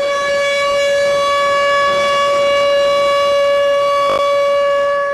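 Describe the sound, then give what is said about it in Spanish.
An air raid siren in Ukraine wails as a loud, steady, sustained tone that holds an unwavering pitch throughout, alone and without voices. “La vida continúa entre sirenas y explosiones”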